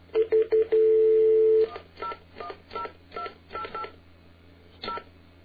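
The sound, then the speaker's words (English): Touch-tone dialing of a telephone number through AT&T: a few quick beeps, one long held tone, then a steady run of separate key tones, loud and clear with no voices. “But listen to what happens when I dial through AT&T.”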